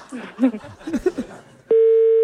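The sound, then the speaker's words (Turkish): A telephone sounds a loud, steady tone that cuts in sharply after a stretch of talking and holds unbroken to the end. “Ne kadar gür çalıyor değil mi telefon?”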